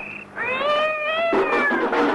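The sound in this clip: A cat yowls: a brief high note, then a long, drawn-out wavering cry lasting about a second, which breaks into a rougher, harsher tail. Loud and alone, with no talk.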